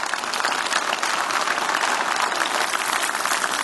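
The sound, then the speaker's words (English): Congregation applause at a church service welcoming a pastor, a dense, even roar of clapping that stays loud and steady throughout without voices. “So wherever you are at, could we all just put our hands together, welcome each other, and welcome Pastor Mark here today.”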